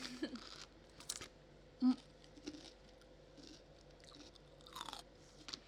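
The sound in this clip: Someone crunches on a cucumber while eating, a few crisp, quiet bites with soft wet chewing between them.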